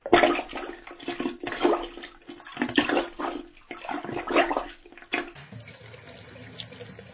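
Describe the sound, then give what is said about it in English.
Water gurgles and rushes as a bathtub drains after being cleared with a plunger, surging in repeated pulses before settling into a softer, steadier flow. “Yes, it is working. The tub is draining now.”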